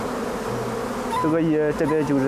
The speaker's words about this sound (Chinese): 这个是蜂王，